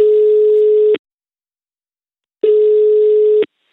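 Ringback tone of an outgoing telephone call: two steady, mid-pitched electronic beeps, each about a second long, separated by a stretch of silence.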